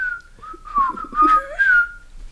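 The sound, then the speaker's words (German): A person whistles a jaunty tune like the one the men hanging on crosses whistle, a few bright melodic phrases with sliding notes, clear and alone without talk. “Wo die dann alle so am Kreuz hängen und dann pfeifen die so.”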